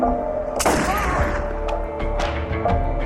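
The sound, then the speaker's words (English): Gunshot sound effect in an audio drama: one sharp, loud bang with a decaying tail, followed by a few fainter knocks and thuds. “Jennifer approached the van. Just shoot him! Whoa, lady, don't shoot. George said shoot, and she did.”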